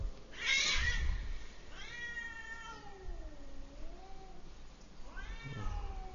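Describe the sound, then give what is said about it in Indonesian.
Cats yowling while mating, drawn-out wavering caterwauls with sliding pitch: a brief harsh cry, then a long wailing yowl that dips and bends, then another short rising cry near the end. “Kucing mau kawin ribut.”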